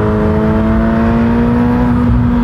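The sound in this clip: Engine of a low-slung car with an active rear wing, accelerating with the pedal only partly pressed. It gives a loud, steady engine drone with a strong tonal hum that holds throughout.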